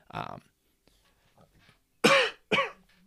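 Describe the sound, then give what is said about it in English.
Throat clearing from a dry throat: one short rasping burst, a pause, then two louder, harsher bursts in quick succession. “sorry about that. Throat is very dry.”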